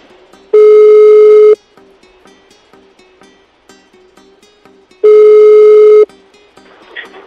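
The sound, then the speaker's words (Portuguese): A ringback tone sounds while a phone call is being placed. It gives two long, steady, buzzy tones about a second each, separated by several seconds of faint background noise. “Vamos tentar mais. Qualquer coisa liga para Sônia.”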